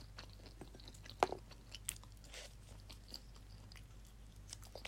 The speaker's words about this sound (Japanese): 枝豆も食べます。うん、おいしい。